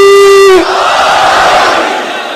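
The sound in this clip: A crowd shouts the Naara-e-Haidari religious chant. A single voice holds a long call, then a loud massed roar of many voices answers and fades gradually.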